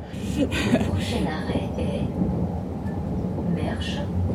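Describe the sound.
A packed commuter passenger train from Troisvierges to Luxembourg City rides along the rails with a continuous low rumble and rattling, and faint voices sit over the steady noise.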